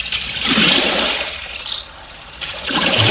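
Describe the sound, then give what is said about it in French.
Oars from a rowing boat splash through water, heard as a loud, continuous rush and slosh of water that swells a few times. “Oui, c'est ça, c'est une barque. C'est des rames dans l'eau.”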